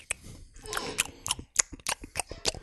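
Chewing on a rum ball, with many crisp, crunchy bites and mouth clicks in an uneven rhythm, loud bursts separated by short gaps.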